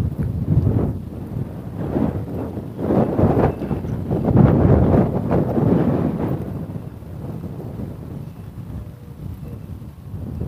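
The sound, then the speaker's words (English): A brisk wind gusts across the microphone as a low, roaring rush that swells and eases unevenly for about ten seconds, with no voices. “It's a brisk wind. It's not as chilly as it was the other morning, but it's a pretty brisk wind still.”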